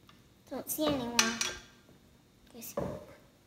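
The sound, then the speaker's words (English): Whole tomatoes are mashed with a potato masher, giving a few soft metallic clanks and squelchy knocks in short bursts. The sound is fairly quiet. “we can either slice them or we can mash them using a potato masher. You want to mash them until they're all pretty much crushed.”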